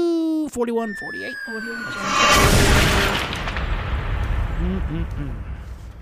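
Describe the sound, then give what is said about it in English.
A bomb detonates in one loud, rumbling blast that swells suddenly and then decays into a long, heavy roar, with voices heard before and after it. “All right, let's detonate that bomb.”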